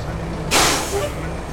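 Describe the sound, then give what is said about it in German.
Air-brake hiss from a street-cleaning truck coming to a stop: a single sudden, loud burst of hiss that fades over about a second above a low, steady engine rumble. “Kurz hinter dem Palaseum kommt der Wagen zum Stehen.”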